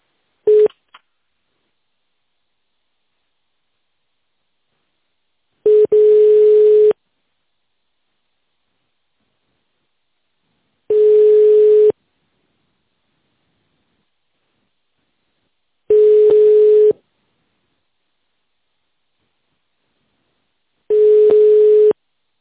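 Telephone ringback tone sounds while a call is being transferred: four long, steady mid-pitched beeps at even intervals of about five seconds, preceded by a short blip at the start, with silence between and no talking.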